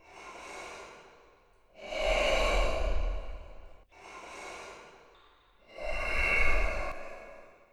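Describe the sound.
A dying black bear breathes out in huge, long sighs: four broad breaths that alternate between softer, airy ones and louder, heavier ones with a low rumbling undertone.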